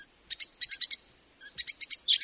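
Lovebirds chirping in two rapid bursts of high, sharp chirps separated by a short pause, fairly loud and with no voices.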